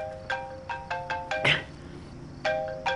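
A mobile phone rings with an incoming call: a melodic ringtone of short, repeated electronic notes, broken by a brief noisy burst and a pause before the notes resume.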